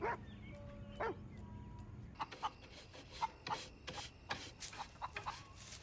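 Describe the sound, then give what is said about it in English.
Faint dog barking as a dog plays with children: many short, sharp barks in an irregular rhythm, spaced apart at first and then coming more densely. “Through the windows, Rachel and Maya see the kids playing with Max the dog.”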